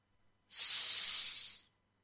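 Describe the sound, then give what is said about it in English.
A deep breath drawn in during a guided breathing exercise: a single steady, airy hiss of about a second that swells in and fades out, heard alone. “Another deep breath in.”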